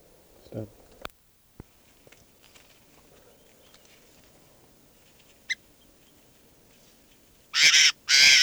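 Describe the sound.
Bird calls: a brief low call near the start and a few faint chirps, then two loud, harsh bursts close together at the end.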